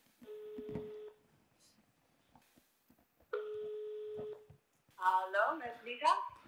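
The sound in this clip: Ringback tone on an outgoing telephone call: two long, steady, faint buzzing tones separated by a gap of a couple of seconds, followed by a voice starting to speak.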